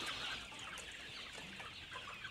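Chickens settling down before bedtime make a soft, continuous chatter of clucks and chirpy calls. It is faint and overlapping, with no talk.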